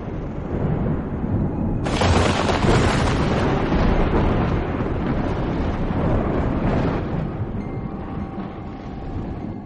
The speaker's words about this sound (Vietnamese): Cô gái vừa dứt lời, một tia sét nữa lại rạch ngang bầu trời, tiếng sấm đinh tai nhức óc.